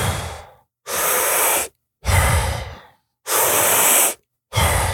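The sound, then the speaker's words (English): Deep breaths in and slow exhales, part of a breathing exercise done in rounds of 30 breaths. Loud, airy inhales and exhales alternate with short silent pauses, about five breath sounds in all, with the exhales fading out gradually. “you go into another round of 30 breaths. So deep in and let it go.”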